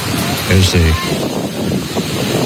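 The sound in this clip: Violent ocean waves at Seabright Beach, California, make a continuous rushing roar mixed with wind buffeting, with a voice speaking briefly early on.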